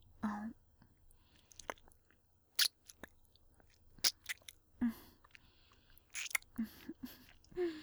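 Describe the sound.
ASMR ear-eating mouth sounds: wet smacks, crisp clicks and nibbling bites in irregular bursts, mixed with soft whispering between sharp isolated pops, all close and quiet.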